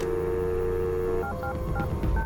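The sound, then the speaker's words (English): Payphone keypad tones from a phone outside a motel: a steady dial tone hums first, then breaks into a run of short, clipped touch-tone beeps at differing pitches as a number is punched in. “He punches a number on the keypad.”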